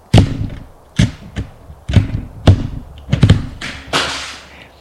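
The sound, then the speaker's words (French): Thuds and knocks come from a young man trying to open a white van's door: several sharp, irregular bumps and rattles, some in quick pairs, loud and with no voices. “Le jeune homme essaye d'ouvrir la portière d'une camionnette, blanche.”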